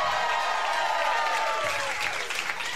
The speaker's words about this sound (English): Give it up for all three of them.